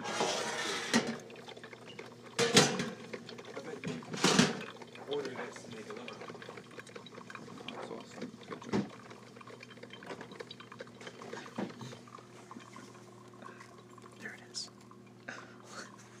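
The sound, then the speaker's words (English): Liquid gurgles and pours from a coffee pot as it brews and is poured, faint and steady over a low hum, with a few sharp clinks standing out early on. “and now, the sound of the coffee pot.”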